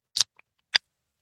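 A drink can cracked open by its pull tab: a sharp, hissy snap, a tiny click, then a second crisp burst of fizz-like noise, all fairly faint and alone in quiet.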